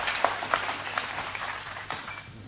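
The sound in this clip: An audience applauds to welcome a speaker to the front. Many hands clap in a steady patter at moderate loudness, with no voices over it.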